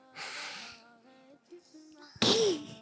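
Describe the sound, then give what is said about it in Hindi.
A deep breath drawn in to calm anger: a loud, rasping rush of air lasting about half a second near the end, after softer breathy voiced sounds. “गहरी सांस लेनी है। गहरी सांस लेनी है कैसे?”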